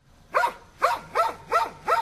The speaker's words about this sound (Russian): Сказал пес, прыгая от восторга.